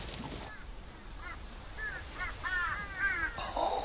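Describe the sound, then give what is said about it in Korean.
Vultures gathering to feed give many harsh, croaking calls that overlap and grow denser, heard over a steady background hiss. “독수리들이 저쪽에 있었던 예. 독수리들이 아, 예, 다 왔습니다.”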